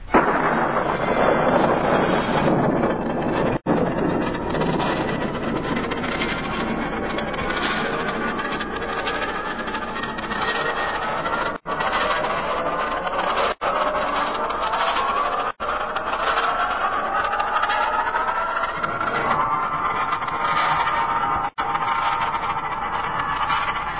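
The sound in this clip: A rocket launch sound effect after a countdown in the science-fiction drama X Minus One: a long, sustained roaring rumble that holds steady, broken only by a few abrupt momentary dropouts.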